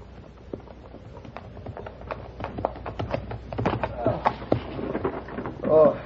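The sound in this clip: Horse hooves clip-clop as a rider arrives, a run of many sharp, rhythmic clops that grow louder toward the end, with a voice speaking alongside.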